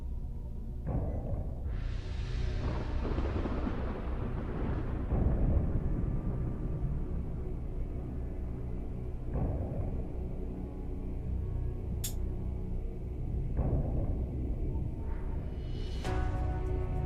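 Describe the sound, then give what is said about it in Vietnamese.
Deep, rumbling booms of thunder from repeated magical lightning bolts striking a barrier: several heavy low strikes roll into one another in a continuous roar that swells and settles over the whole span. “Những tiếng đùng đùng liên tiếp vang lên. Từ trên đám mây, thần lôi liên tục bổ xuống lớp cốt chắn đang bao phủ lên quỷ hồn của Tập Bình pháp sư”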